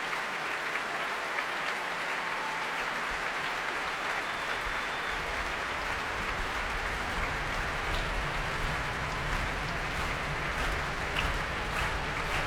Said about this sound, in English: And that, ladies and gentlemen, is the sound of a capacity audience who have very much enjoyed themselves.